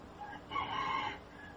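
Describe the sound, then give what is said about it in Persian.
A rooster crows once, a faint drawn-out call over a steady low background hiss. “صدای خروس هم میاد در زمان.”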